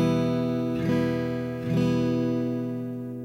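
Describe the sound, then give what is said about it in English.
An E minor chord is strummed twice on a guitar, fingered as an E shape with the first finger lifted. Each full, bright chord rings out and slowly fades. “The E minor should sound like this.”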